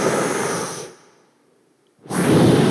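Breathing underwater through a diving regulator on an oxygen tank. A loud hissing rush of air fades into near silence for about a second, then a second strong rush of breath bursts in.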